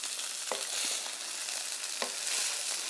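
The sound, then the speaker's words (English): Cooled leftover rice sizzles and fries in a hot wok, a continuous crackling hiss broken by a few sharp clacks of stirring against the pan, with no voices. “And you hear that wok going.”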